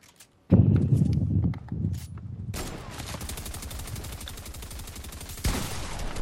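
Rapid gunfire in a video game, aiming for headshots: after a few heavier opening blasts, a dense, fast run of many sharp shots crackles steadily for several seconds, with a louder burst near the end.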